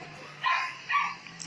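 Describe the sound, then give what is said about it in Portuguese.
A dog barks from across the street: a couple of short, faint barks separated by quiet, with another just starting at the very end. “Desde de manhã que o cachorro tá latindo. E olha que não é aqui perto, é lá do outro lado da rua, mas eu não sei. E o latido vem forte aqui.”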